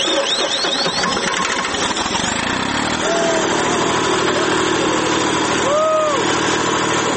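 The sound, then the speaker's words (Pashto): A generator runs to power the lights over a playing field, giving a steady, buzzing engine drone that holds loud and even while someone speaks over it. “جنراتور چلانه سو میدان رڼا سو”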